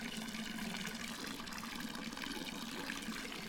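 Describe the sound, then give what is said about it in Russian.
Thin stream of water pouring into a mortar (stupa) to fill it, a steady, even trickling rush that runs without pause and with no voices over it. “Василиса, Иван, Кощей и молодая Яга стоят вокруг ступы, в которую льется тонкая струя воды. Уныло следят за процессом заполнения ступы.”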